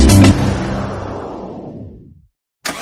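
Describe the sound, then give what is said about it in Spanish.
A car setting off on its journey: a loud start gives way to a whooshing rush that fades steadily into silence, then a short new burst of sound. “¿Oyes eso? Ahí comienza el viaje de un vehículo respaldado por una garantía limitada de 10 años o 100.000 millas para el tren motriz.”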